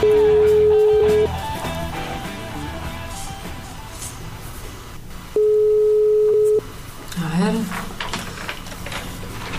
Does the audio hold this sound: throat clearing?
no

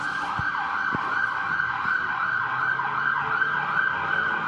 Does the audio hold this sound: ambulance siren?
yes

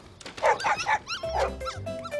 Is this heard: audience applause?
no

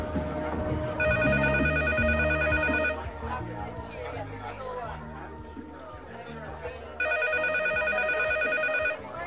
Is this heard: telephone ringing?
yes

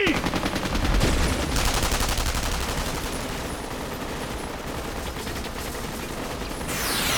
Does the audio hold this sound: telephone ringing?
no

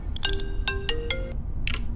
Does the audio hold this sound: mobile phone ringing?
yes

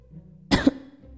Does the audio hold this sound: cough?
yes

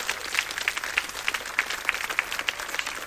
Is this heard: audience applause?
yes

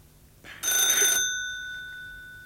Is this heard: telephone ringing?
yes

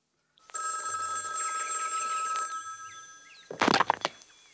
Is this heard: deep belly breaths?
no

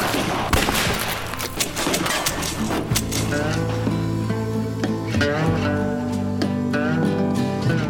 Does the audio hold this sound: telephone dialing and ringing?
no

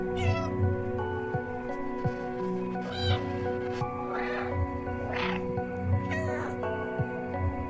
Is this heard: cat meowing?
yes

